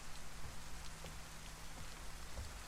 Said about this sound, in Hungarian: Elindulok az esőben.